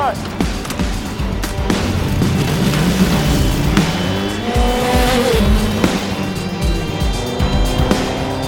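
A motorcycle brakes using only its rear brake: the engine note swoops up and down, tires squeal, and the loud, continuous sound lasts around eight seconds.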